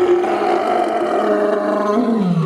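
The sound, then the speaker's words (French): A lion's roar, one loud sustained low growling roar with rough texture that drops in pitch toward the end, heard alone. “Si elle était un animal, elle serait un lion, parce que c'est féroce.”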